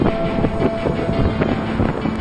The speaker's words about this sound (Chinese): 大风开始在园上持续呼啸